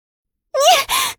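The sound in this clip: A sharp gasp, breath turning quick from shame and anger: a strained, voiced intake and then a second rushed breath, close together and alone in silence.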